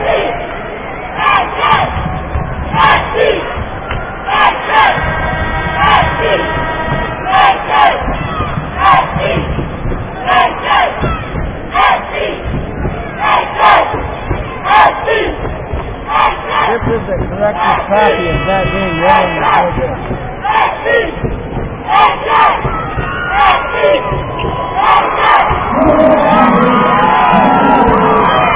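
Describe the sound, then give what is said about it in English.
A crowd cheers and shouts at a high school basketball game in Spokane. The roar is loud and sustained, with rhythmic beats running through it and voices whooping throughout. “And we'll let you enjoy some of the sounds of this wonderful experience here at Spokane.”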